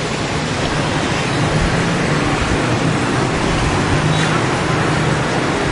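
Street traffic at a crossing with a red light: a loud, steady wash of road noise that continues for the whole stretch with no distinct passing events.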